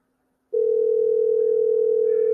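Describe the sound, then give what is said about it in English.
A steady telephone line tone sounds while a call is placed, starting after half a second of silence and holding one unbroken, even pitch to the end. “while we're waiting for Rick to answer or not answer his phone”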